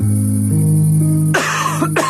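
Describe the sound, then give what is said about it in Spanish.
Two loud, harsh coughs break in one after another right after a sustained musical chord, each a short rough burst with nothing else underneath. “Una tos puede convertir tus sueños en la peor pesadilla.”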